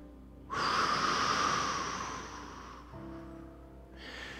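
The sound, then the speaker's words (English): A deep breath and big cleansing exhale from a group is heard as one long, airy rush of breath lasting about two seconds. It fades into quieter background sound. “everybody take a deep breath, and then we're going to do a big cleansing exhale”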